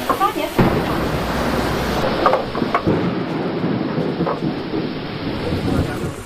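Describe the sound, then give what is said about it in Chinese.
Thunder and heavy rain break over an archaeological dig, a dense, steady roar of rainfall with low rumbling throughout and a few louder surges near the middle. “席子的发掘工作被雷声打断，大雨随之而来。”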